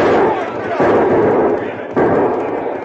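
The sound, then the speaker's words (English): Gunshots fired after fleeing riders: a few heavy, booming bangs, each with a long decaying tail, coming at irregular intervals. “Those fellas shoot mighty poor.”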